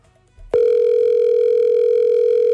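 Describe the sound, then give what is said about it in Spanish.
A telephone tone on a call that goes unanswered: after a brief quiet moment, a single loud, steady electronic beep starts and holds without a break to the end. “Ve, pero me acaba de decir que la llamada no contesta, no entendí. Ay, no, ese sonidito que desespero.”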